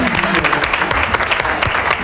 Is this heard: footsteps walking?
no